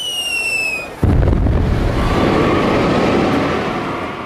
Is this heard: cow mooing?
no